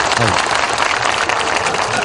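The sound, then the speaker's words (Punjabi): Audience clapping during a song performance: a thick, steady wash of claps that holds through the whole stretch, with a voice briefly audible near the start. “ਇੱਕ ਤਾੜੀ ਲਾ ਕੇ ਜਾਜ ਦੇ ਦਿਓ ਫਿਰ।”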